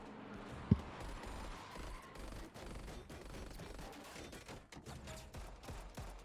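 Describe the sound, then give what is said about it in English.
Machine pistol gunfire in rapid, dense bursts that run almost continuously, with one sharp, loud crack early on and some mechanical clicking mixed in. “Y'all are just working this machine pistol right there.”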